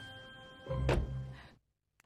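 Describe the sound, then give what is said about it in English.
A door is shut abruptly with a single dull thud and a short rumbling tail over faint steady tones. It then cuts off into near silence. “abruptly shuts the door.”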